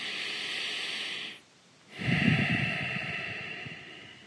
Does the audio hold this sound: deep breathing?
yes